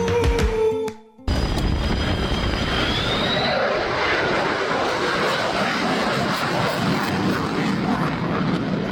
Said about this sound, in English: That's a pass from an F-35 at the Blue Angels Homecoming Air Show demo. Of course, the F-35A variant that the Air Force flies.